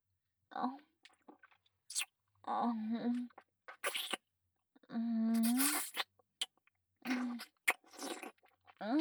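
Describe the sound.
Food is chewed and eaten in crunchy bites, with several sharp clicks scattered between voiced murmurs and quiet gaps, all at a modest level.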